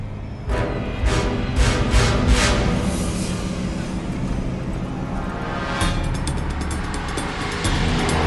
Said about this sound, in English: The truck thunders on down the road towards a Silogen complex